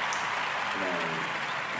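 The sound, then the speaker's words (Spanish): An applause sound effect plays in a studio as a dense, uniform wash of rapid clapping. It holds at a steady level for the whole short stretch. “Vamos a poner aplausos para que funcione.”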